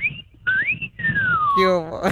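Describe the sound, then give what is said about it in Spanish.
A person whistles a short tune in clear, pure notes. The melody rises, then glides down in one long falling note and ends with a brief, fuller burst of sound. “Que yo también silbo, me gusta silbar como usted, ¿cómo ve? A ver, ya tiene competencia. A ver, échale la chiflidilla, mami. Seguro que sí, aquí le va uno.”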